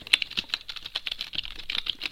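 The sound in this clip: Rapid typing on a computer keyboard, a dense run of many crisp keystrokes clattering at an uneven pace for the whole stretch, with no voices.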